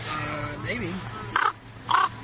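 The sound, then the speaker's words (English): A person imitates a raven's call with two short, hoarse caws after a stretch of low talk, the second caw slightly longer than the first. “How's that for a raven call?”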